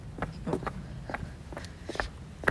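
Footsteps of someone walking through a residential neighbourhood near home: a faint, steady series of soft steps over quiet background hiss, with no voices.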